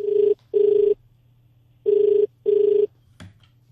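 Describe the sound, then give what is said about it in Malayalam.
A telephone ringing with an incoming call: four steady, mid-pitched ring bursts in two double-ring pairs, separated by a longer pause and followed by a short, sharp click. “ഇനി ഇന്ന് നമുക്ക് വെള്ളിത്തിരയിലേക്ക് ആദ്യം വിളിക്കുന്നത് ആരും നോക്കാം.”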